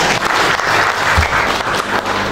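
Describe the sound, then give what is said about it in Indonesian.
Audience applause at a talk: thick, continuous clapping from a crowd, loud and steady from start to finish, with no pause or clear break. “Tolong aplaus sekalian buat Pak Ronald.”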